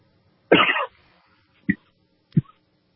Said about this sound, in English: Having the chokes.